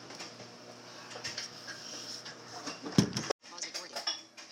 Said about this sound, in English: we just keep stirring it here and try not to make a mess.